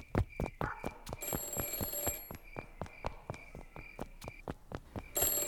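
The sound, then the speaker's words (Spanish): An office telephone rings with a rapid, bell-like trill made of many sharp strikes in a steady, even rhythm. It continues alone without pausing, with no voices over it. “Espera, escuche. ¿Eso es el teléfono de mi despacho? Sí, eso parece.”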